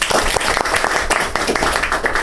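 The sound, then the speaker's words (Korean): A Korean-language church twelve-step group welcomes a member with applause: loud, thick, continuous hand clapping with many overlapping sharp claps and no break. “박수로 환영합시다.”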